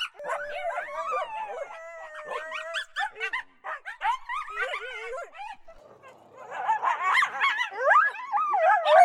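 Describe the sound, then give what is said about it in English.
Coyotes vocalizing non-stop in an overlapping chorus of high yips, wavering howls and whimpering barks that slide up and down in pitch, easing into a brief lull midway before building louder again toward the end. “Bustin' Fur Audio Riot. Just shy of 6 minutes in length. Non-stop coyote vocals.”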